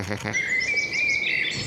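Birdsong: a high, sustained whistling line with rapid, fluttering chirps layered above it, fairly faint and continuous throughout.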